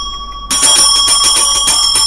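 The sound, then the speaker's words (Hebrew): An ice seller's hand bell rings out, starting abruptly after a brief quiet moment and then continuing as loud, rapid metallic strikes with bright, sustained high overtones. “כששמענו את צלצול הפעמון של מוכר הקרח”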